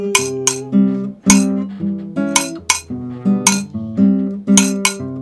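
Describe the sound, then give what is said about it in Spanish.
A kitchen pot struck like a household instrument, giving many rhythmic metallic clinks with ringing tones in a steady, repeating beat. “El cacharro suena así.”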